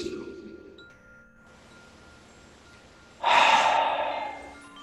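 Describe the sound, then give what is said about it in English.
A deep breath taken during a guided relaxation: after a quiet stretch, a long, noisy, breathy inhale rises sharply and slowly fades toward the end. “Take another breath”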